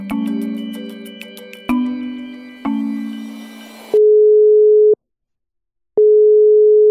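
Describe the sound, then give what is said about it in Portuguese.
Telephone ringback tone on a call to a reporter, heard after a few decaying musical notes. Two steady, mid-pitched one-second tones are separated by a second of silence. “A gente ligou para ele na última quinta-feira.”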